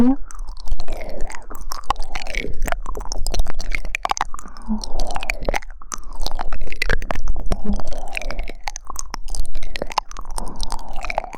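Someone chewing food, with many moist clicks and crunchy snaps in a dense, irregular rhythm. It stays loud and steady throughout.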